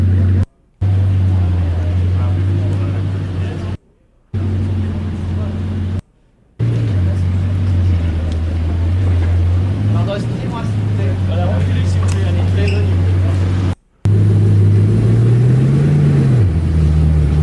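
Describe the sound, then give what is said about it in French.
A new Bugatti Chiron supercar's engine runs with a deep, steady drone at its delivery to a Monaco dealership. Its pitch rises briefly near the end, and a few short breaks cut into the sound. “C'est un beau son de voiture. Donc, on parle de la première livraison à la concession de Monaco. On parle de la nouvelle supercar Bugatti Chiron.”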